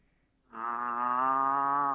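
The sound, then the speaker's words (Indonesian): A loose cow that refuses to go back into its pen lets out one long, steady, low moo. It starts after a brief quiet and holds loud and unbroken to the end. “Sapi ini ucul. Sapinya ucul.”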